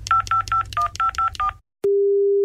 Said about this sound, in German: Moment, ich wähle mal.